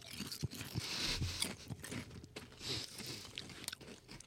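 Biting and crunching on stale paprika potato chips from Italy: many sharp, irregular crunches and chewing sounds follow one another steadily, with no talking.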